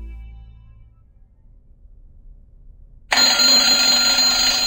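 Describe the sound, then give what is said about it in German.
Master alarm blaring aboard the Mir space station. About three seconds of faint low hum give way to a sudden, loud, harsh alarm that holds steady and unbroken to the end. “Auf der Mir werden wir jeden Morgen vom Dröhnen des Master-Alarms geweckt. Und ich meine Dröhnen.”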